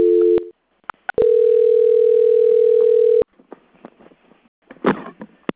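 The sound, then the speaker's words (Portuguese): A telephone line tone plays while a call is being transferred: a short steady beep, a brief silence, then a longer continuous tone of about two seconds, followed by scattered clicks and faint line noise. “peço que aguarde em linha que vou transferir o contato para o controle de qualidade, que dará continuidade. Tá bem. Desejo-lhe um bom dia. Transferência.”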